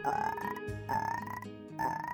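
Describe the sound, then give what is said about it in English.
A small blue frog croaks three times in a steady rhythm. Each call is a buzzy, pulsing mid-pitched trill lasting about half a second, heard alone with no voices. “With that, his cousin had reached behind Babak's ear and produced a frog.”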